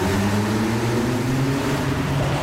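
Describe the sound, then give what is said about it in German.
A car engine roars as the car accelerates hard onto a city motorway. The engine's loud, steady drone is mixed with broad rushing noise, with no talk. “Kannst du mir mal zeigen, wie viele Hufe der Hobel unter der Haube hat? So, jetzt fahren wir mal kurz auf die Stadtautobahn.”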